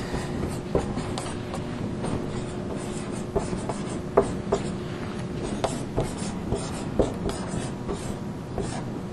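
Someone writes on a board: many short scratchy strokes and small taps in an irregular rhythm, at moderate level over a faint steady background hum.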